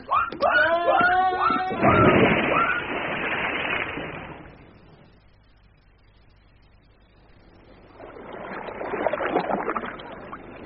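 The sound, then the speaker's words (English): Oars splash and water sloshes as people row a heavily loaded boat. There is a long, loud stretch of watery noise, a quieter lull, then another burst of splashing. “I can't allow you to miss the pleasure of rowing this boat any longer. Come on, change over.”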